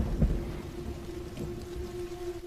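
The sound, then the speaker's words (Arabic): Rain and thunder at night: a low, rolling rumble of thunder sits under a steady wash of rain, with a constant low tone running through. “مطر حواليا برضو في كل مكان وبرق ورعد.”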